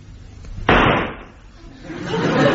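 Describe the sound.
A single sharp gunshot bangs with a sudden attack and a quick decay. Softer noise swells afterward.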